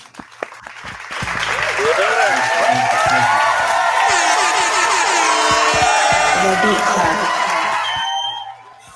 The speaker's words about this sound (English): Everybody, man, let's just put our hands together, man, for our guest, Flames Emoji Beatz.